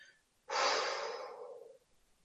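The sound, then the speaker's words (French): A single slow breath drawn in during a guided meditation, a soft airy hiss that begins abruptly, holds for about a second and gradually fades, heard alone without talk. “Je me laisse inspirer.”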